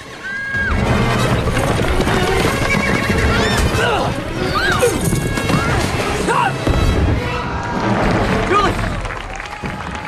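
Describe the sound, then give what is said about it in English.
A spooked horse whinnies and its hooves pound as it rears after firecrackers and gallops through a crowd. The sound is loud and continuous, with crashing impacts and crowd noise mixed in. “firecrackers go off, making the horse rear and pull the stake that it's tied to out of the ground. Wendy's tripped, but she gets to her feet. The horse gallops through the crowds”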